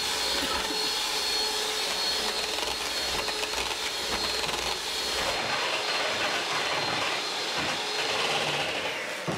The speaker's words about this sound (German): Ich bin fast fertig, aber ich krieg die Sahne nicht steif geschlagen.